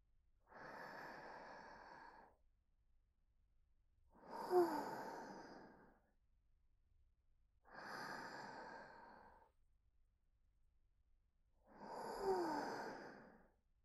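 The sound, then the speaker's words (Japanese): Slow, deep breathing during a guided relaxation: four long, quiet breaths spaced roughly four seconds apart, each a soft, airy exhale alone in near silence. “お兄さん、ゆっくり深呼吸してみてください。はい、ゆっくり。”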